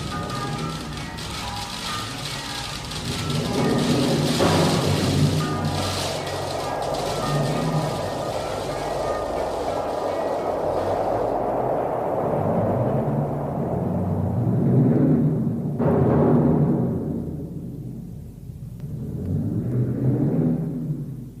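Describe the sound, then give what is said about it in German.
Hail hammers down during a violent storm over farm fields: a dense, sustained pattering and rumbling roar that swells and ebbs several times, with no voices. “Und dann hagelte es.”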